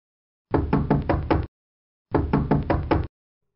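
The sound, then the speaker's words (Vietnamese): Loud pounding on a room door early in the morning: two bursts of heavy, rapid knocks with a short silence between them. “Đột nhiên bị tiếng đập cửa làm cho giật mình.”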